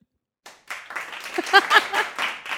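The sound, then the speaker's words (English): A studio audience applauds in a burst of clapping that starts sparse and grows denser and louder, with a few voices calling out among the claps. “Thanks, guys. That's the studio audience we have here.”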